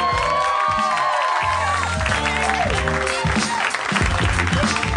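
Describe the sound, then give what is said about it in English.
An audience at a live show applauds as the host is brought on, with loud, steady clapping mixed with cheers and whoops. “Put your hands together for the mayor of Harmontown, Mr. Dan Harmon.”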